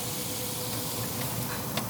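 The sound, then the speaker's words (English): Ham slices sizzling in butter on a grill grate used as a griddle give a soft, steady hiss with faint scattered crackles and no talk. “So put a little butter down and put our slices of ham on the grate that really is working like a griddle at this point.”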